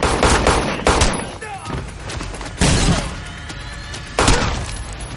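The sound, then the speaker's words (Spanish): Gunfire during a violent action-film fight scene: a few heavy, sharp blasts at irregular intervals, ringing over a dense, continuous rumble of noise and impacts. “Otro les dispara a unos metros de distancia.”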